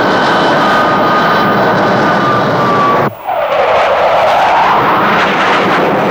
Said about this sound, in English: The Egyptian civil aircraft is touching down now.